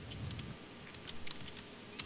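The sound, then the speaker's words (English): Typing on a computer keyboard, faint and irregular key taps scattered across the moment, soft clicks with small gaps between them and one slightly sharper tap near the end. “I'm typing. I realize I can talk.”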